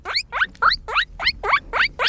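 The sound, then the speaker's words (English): Guinea pig squeals as a sound effect: eight short, high, squeaky calls in a quick, even rhythm, each sweeping upward in pitch, fairly loud and with no other sounds. “Guinea pig. Guinea pig. Classic.”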